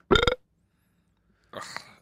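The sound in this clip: Two human burps: a short, loud one at the start, then a pause of silence and a second, softer, longer burp.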